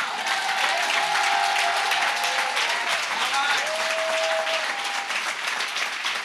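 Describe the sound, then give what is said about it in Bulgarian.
Audience clapping during a church sermon, a thick, continuous patter of many hands that stays loud and even throughout, with a few voices rising above it. “ако ръкопляскаш, ръкопляскай, като че наистина вярваш.”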